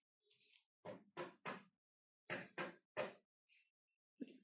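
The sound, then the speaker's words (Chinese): Knocking on a door: two rounds of three crisp knocks separated by a short pause, with a few fainter taps before and after. “嗯？谁在敲门啊？”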